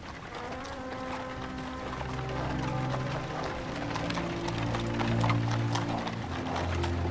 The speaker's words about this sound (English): A hearse, festooned with flowers and pulled by a single black horse, slowly follows a priest along a tree-lined avenue.